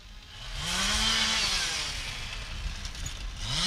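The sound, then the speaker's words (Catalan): Chainsaws run by workers cutting trees at the roadside during morning emergency works: a loud, continuous buzzing engine drone whose pitch swells and sags as the saws rev and ease off, with no voices. “Això que sentiu de fons són motoserres. Uns operaris estan treballant a peu de carretera per tallar els arbres.”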